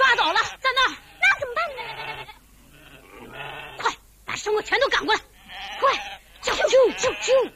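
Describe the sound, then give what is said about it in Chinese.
Sheep bleat as a herd of sheep and cattle is driven forward with whips. Many wavering, nasal bleats overlap in quick bursts with short gaps between them. “小栓子他们明白了小松的意思，挥着鞭子赶着羊群牛群朝前飞跑起来”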